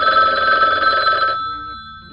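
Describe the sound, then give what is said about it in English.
A telephone rings with one bright, loud bell burst. The ring stops abruptly and leaves a fading tone. “Oh, that's the phone. Hold on. I got to get the phone.”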